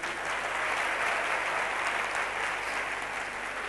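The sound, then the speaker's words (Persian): Applause from a seminar audience on learning: a continuous, dense patter of many hands clapping at an even, moderate level for the whole stretch, with no pauses. “یه دست براش بزنید”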